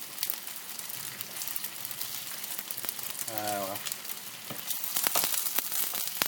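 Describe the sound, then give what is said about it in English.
Raw meat pieces sizzle in a frying pan, pink on the outsides and balanced on their edges to cook. A steady, crackling fry runs throughout, with a few sharper spits and pops. “All around the outsides, they're pink because the meat's not cooked there. Trying to balance them all on their edges now. Cook the edges.”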